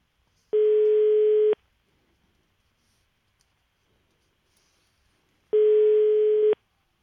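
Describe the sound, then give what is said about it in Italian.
A telephone ringback tone sounds while someone is called back: two identical buzzing rings, each about a second long and separated by a long silent gap, with a steady mid pitch and no voices. “proviamo a richiamare Parenzo un attimo, proviamo a richiamarlo che mi incazzo”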